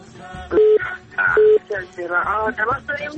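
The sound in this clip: Two short electronic telephone tone bursts signal an incoming call. They are evenly pitched and steady, separated by a brief gap, and voices talk before, between and after them.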